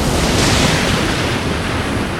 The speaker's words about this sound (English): I command this sea now to part its waters, open a path to the Jewish people, to pass